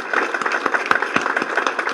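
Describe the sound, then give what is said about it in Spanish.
Audience applause for health workers, many hand claps in a quick, fairly even rhythm at moderate level, without talk over them. “Yo quiero un aplauso para todos los funcionarios que nos acompañan.”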